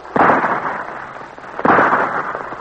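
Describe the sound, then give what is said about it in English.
Two gunshots, fired by a sergeant at an attacking bear, crack out about a second and a half apart, each a sharp loud report trailing into a rough, noisy decay. “Another vicious bear. Shoot, Sergeant!”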